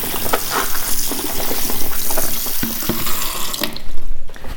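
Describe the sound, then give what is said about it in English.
Tap water running into a sink while purple grapes are washed, a loud, continuous splashing hiss with small irregular splashes throughout. “I'm washing the grapes now. It makes noise.”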